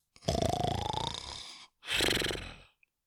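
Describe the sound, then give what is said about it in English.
A donkey snoring with big, rough snores: two long, loud, breathy snores separated by a brief gap, the first longer than the second, followed by a tiny faint click. “Already she heard tiny little snores from Fluffy, and big donkey snores from Dapple.”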